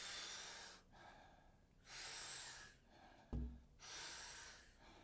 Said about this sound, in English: So we're going to be taking about 40 powerful breaths into the body through the mouth. And the exhale is a nice, soft, relaxing exhale. We do it rhythmically, we do it together, and it sounds like this.